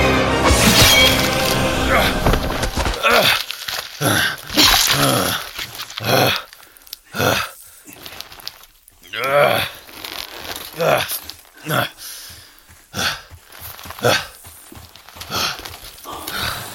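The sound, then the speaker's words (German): A sword splits a lion's skull in a fight scene from a Conan radio play. The sound effects are a busy stretch of sharp cracking, tearing and crunching impacts in uneven bursts, with gaps between some blows. “Selbst fast schon ein wildes Tier, wich er den riesigen Pranken des Löwen aus und drehte sich mit seinem Schwert, schlug zu und spaltete dem Tier den Schädel.”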